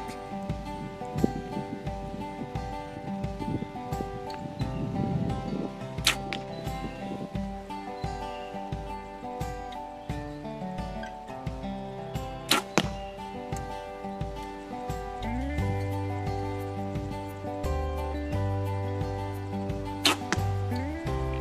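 Arrows shot from a bow during warm-up practice: three brief, sharp snaps of release, spaced several seconds apart, over steady background music.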